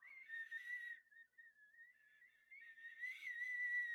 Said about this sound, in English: the worst whistle you can ever blow is one that sounds like this.